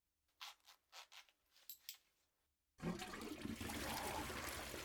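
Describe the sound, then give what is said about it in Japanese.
A toilet flush bursts in partway through as a sudden loud rush of water that continues steadily to the end. A few faint soft sounds come before it. “おしっこ流しそびれちゃったね。ごめんごめん。”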